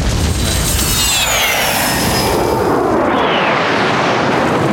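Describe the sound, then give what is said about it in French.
A loud, heavily distorted explosion sound effect, a dense crackling roar that fills the whole clip, with a thin high whine sliding downward near the start. “Ah, la fameuse explosion avec la disto.”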